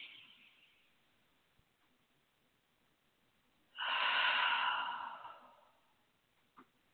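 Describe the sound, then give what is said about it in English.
A deep breath through the nose during a calm breathing exercise: a loud, airy rush lasting about a second and a half after a faint breath at the start, with quiet before and after and a tiny puff near the end. “It's that deep breath in through your nose and holding it, maybe even for 3 seconds, and then letting it all out.”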